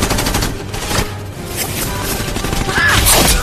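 Automatic-rifle fire from a helicopter in a film battle scene: dense, crackling bursts over a heavy rumble, rising to a louder sweeping blast near the end.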